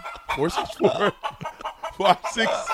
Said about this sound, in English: All I want you to do is play the chicken noise and I'm gone.